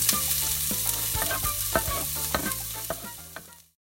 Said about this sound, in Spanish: Este guisito ya se está cocinando. Solamente le voy a echar un poquito de vino.